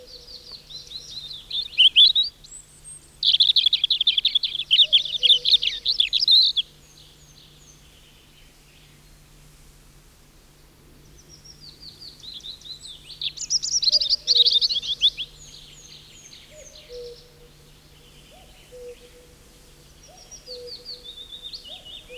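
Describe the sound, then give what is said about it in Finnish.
A European robin sings in a spruce forest. High, thin, warbling phrases come in a few bursts separated by quiet pauses, and the later phrases grow fainter. “Punarinta on toinen tavallinen kuusikoiden laulaja. Laulurastaan tapaan sekin soittaa säveliään innokkaimmin ilta- ja aamuhämärissä.”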